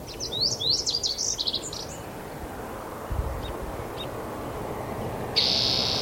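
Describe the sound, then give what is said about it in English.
Song sparrow singing a short phrase of rapid chirps and buzzy trills, fairly faint over a steady low background rumble, followed by a few faint high chips. “Song Sparrow.”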